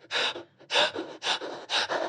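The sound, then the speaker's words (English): Deliberately staged crying-style breathing by a person: four breathy, gasping bursts in a steady, even rhythm, each separated by a short quiet gap, with no speech. “if you want to do crying breathing, if I get this right, you go four breaths in and then one breath out”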